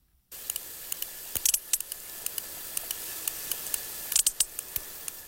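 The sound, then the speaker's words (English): Sperm whale clicks recorded in the eastern Mediterranean: many sharp, dry clicks at an irregular, fairly quick pace over a steady background hiss, with a tight cluster near the end. “Now, that's the sound of a sperm whale from the eastern Mediterranean.”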